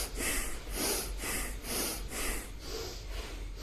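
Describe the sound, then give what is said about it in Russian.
Bhastrika breathing, with forceful inhales and exhales through the nose in a yoga breathing practice. Loud, rough, rushing breaths repeat in a fast, steady rhythm throughout, with no talking. “начинаем дышать бхастрику. Здесь мощный вдох носом и мощный выдох.”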